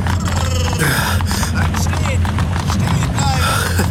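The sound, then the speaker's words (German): Hoofbeats and clatter from a horse-drawn carriage coming to a stop, a busy run of knocking hits under voices. “Die Kutsche kommt zum Stehen.”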